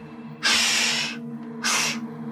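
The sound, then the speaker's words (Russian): An unseen person takes two hissing breaths: a long one, then a shorter one after a brief pause. Both are loud and breathy over a faint, steady low hum. “Нет, я готов поклясться. Тут кто-то дышит.”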